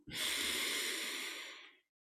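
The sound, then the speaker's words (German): One deep inhale during a guided meditation before chanting, a single long, quiet, breathy hiss lasting under two seconds that tapers off before stopping. “Atme tief ein.”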